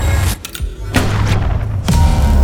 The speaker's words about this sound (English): The coil gun is firing.